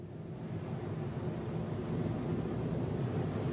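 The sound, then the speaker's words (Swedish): Car driving along a small winding road that clings to a cliff edge between Visby and Klintehamn on Gotland, heard as a steady low engine and road rumble that grows slightly louder. “Ja, jag befinner mig någonstans mellan Visby och Klintehamn och kör på den slingriga lilla vägen som liksom klamrar sig fast längs klippkanten”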